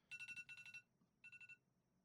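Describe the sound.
A mobile phone rings out loud instead of vibrating, its ringtone a faint, bright, high-pitched trill pulsing in quick groups of four: two groups back to back, a short pause, then a third group.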